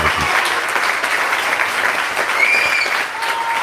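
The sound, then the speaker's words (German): Loud, dense applause holds steady with little change in level, with a few sharper claps standing out and a couple of brief, thin whistle-like tones rising above the clapping. “Gibt's doch auch einen Applaus davor.”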